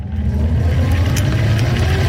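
A new, speed-limited five-gear electric wheelchair drives along with a steady motor whir over a continuous low hum, holding an even loudness throughout.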